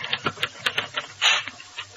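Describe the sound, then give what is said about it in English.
Typewriter keys being struck in a quick, steady run of sharp mechanical clacks, with a slightly louder, longer clatter near the end; no talk. “I don't know why I can't read these things after they come out of the typewriter.”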